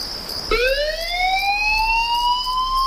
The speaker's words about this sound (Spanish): Son las 4 de la madrugada. Suena un aviso. Alguien necesita ayuda en algún punto de la isla.